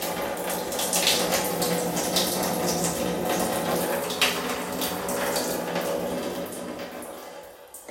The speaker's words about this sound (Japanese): 我慢できなくて立ったまんまおしっこしちゃった。足にもかかえちゃった。